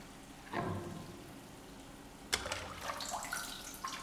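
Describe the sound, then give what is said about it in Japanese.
Hot water is poured over a body to rinse off soap, two faint pours: a short splash near the start that fades, then a longer, louder gush with splashing and trickling toward the end. “お湯をかけて、このままきれいさっぱり洗い流すわよ。”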